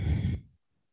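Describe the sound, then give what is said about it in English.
A single soft exhale during a yoga twist: a breathy sigh that lasts about half a second and fades into silence. “Have a breath in. And a breath out.”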